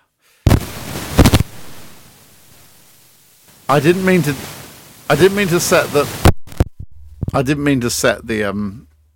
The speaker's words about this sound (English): I didn't mean to set the fireworks off then.